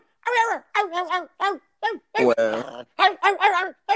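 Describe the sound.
Barking and sharp yelping from two female dogs fighting: many short, pitched bursts in an irregular, rapid run, with a rougher, snarling burst in the middle.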